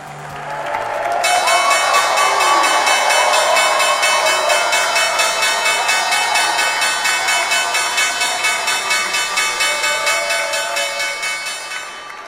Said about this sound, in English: That's the sound of the New York Stock Exchange bell marking the debut of a newly listed company.